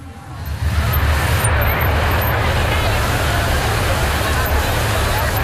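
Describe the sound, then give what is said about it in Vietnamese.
Police motorcycles in a riding demonstration perform paired zigzag runs and head-to-head 180-degree turns, their engines making a loud, steady rumbling drone that holds throughout. “Các đồng chí cùng toàn thể nhân dân đang được theo dõi cán bộ chiến sĩ biểu diễn kỹ năng chạy xe rích rắc hàng đôi đối đầu quay 180 độ.”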